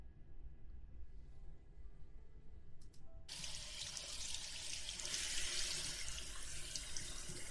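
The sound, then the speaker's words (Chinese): Running water rinses a man's hair during a gentle traditional Chinese-style hair wash. After a quiet start, the faucet flow begins abruptly and continues as a soft, steady splashing hiss. “好了，差不多了，先生，那我帮您冲水了。”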